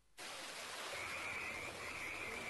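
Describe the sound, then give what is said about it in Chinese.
Frogs croaking in a rural village in Yixing, China, in early summer. It is a faint, continuous chorus under steady hiss, with a thin high tone that comes and goes. “冻夏已至，宜兴市胡富镇福西村绿波翻滚，蛙鸣起伏”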